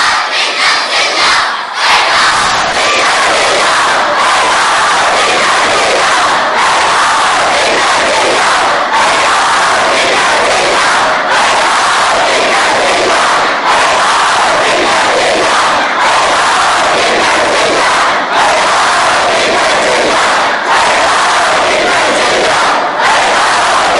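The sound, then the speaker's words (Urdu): A large crowd of children and adults shouts the slogan Hayhat minna dhilla together at a religious gathering. The mass of voices roars loudly and densely, with a repeating rhythmic pulse that carries on unbroken for the whole stretch. “ابھی سب نے چھوٹے چھوٹوں نے اور بڑوں نے مل کے سب نے اب وہ نعرہ لگانا ہے جو امام حسین علیہ السلام نے خود لگایا تھا، ہے ہاں من الزلہ”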